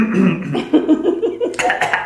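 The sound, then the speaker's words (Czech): A person in a coughing fit lets out a rapid run of short, choppy coughs, rough and breathy, with the bursts turning harsher and noisier near the end. “Promiňte. Nějaký záchvat kašle.”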